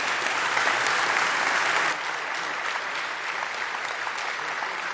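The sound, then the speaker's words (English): Audience applause welcoming a speaker to the platform: a dense, continuous wash of clapping, loud at first, then dropping to a slightly lower, steady level partway through. “So would you join me in welcoming Dr. Ron Rhodes to our platform?”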